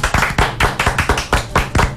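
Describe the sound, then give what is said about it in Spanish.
Audience clapping in unison, a loud series of sharp claps at a steady, even beat with no talk. “Son cinco. Aplaudan que cinco. Se sienta que son cinco hombres.”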